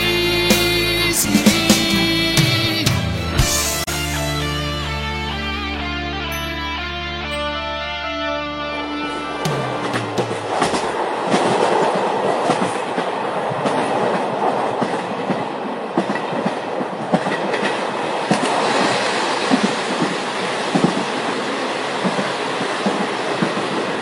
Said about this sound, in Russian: На вас движется неуправляемый тепловоз. Повторяю, на вас движется неуправляемый тепловоз.